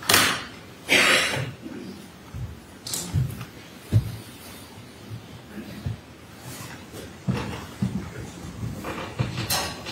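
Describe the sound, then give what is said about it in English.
Door opened and closed repeatedly, compared against a tighter feed room door, giving several dull thumps and scraping knocks at an uneven pace with quieter shuffling between them. “That feed room door is probably a bit tighter than this.”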